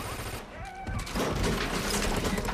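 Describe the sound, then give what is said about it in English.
Gunfire in a film scene as a gun is fired down through a hole in the floor into a kitchen. The heavy, rapid blasts become a dense, continuous barrage from about midway. “Cooper falls into the kitchen and is quickly followed by the Sarge, who then picks up the gun and fires at it through the hole.”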